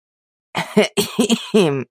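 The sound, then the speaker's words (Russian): A voice imitates a heavyset man choking and coughing: a few harsh, voiced, gagging bursts in quick succession, loud and alone, with a strained, throaty tone. “Бедолага поперхнулся и закашлялся, а я от души настучала по заплывшей жиром спине.”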